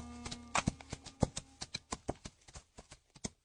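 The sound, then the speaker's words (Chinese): Hooves of two horses walking slowly: many soft clip-clop steps in a loose, steady rhythm, faint throughout. “耶律婉清拿着书信，萧达贵举着荆节，两人骑马慢慢向定州城走去。”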